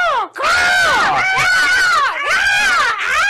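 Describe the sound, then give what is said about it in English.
A single voice imitates an arena crowd going wild for a wrestler's entrance in a tabletop game. It is loud, with a few drawn-out screaming whoops whose pitch sweeps up and down, separated by brief breaths. “And the crowd goes wild. Not with just applause, but also with”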